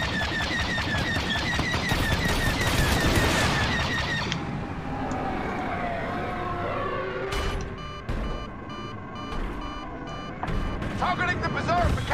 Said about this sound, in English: Stand down. I'm already getting shot.